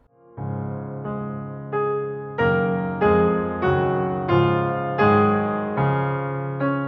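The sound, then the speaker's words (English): Piano accompaniment figuration from a song cycle, played alone: a steady series of repeated chords, each struck cleanly and decaying before the next, moving through shifting harmonies at moderate volume. “You can hear the piano writing changes and it sounds like this.”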